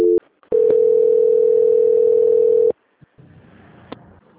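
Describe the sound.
A steady telephone line tone plays during a call transfer. A brief tone comes first, then one unbroken tone of about two seconds, followed by faint, low line noise.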